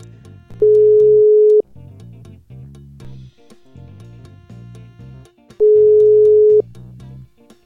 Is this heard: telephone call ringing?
yes